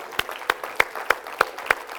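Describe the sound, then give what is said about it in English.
A church audience claps in unison during a worship service: seven sharp, evenly spaced hand claps at a steady beat. “Let's give God a big hand clap.”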